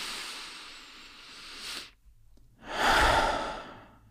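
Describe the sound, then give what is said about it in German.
A deep breath drawn in through the nose during a seated relaxation exercise, a long soft inhale followed by a short pause and then a louder, fuller breathy exhale through the mouth. “Setz dich bequem hin, atme einmal tief durch die Nase ein und durch den Mund aus.”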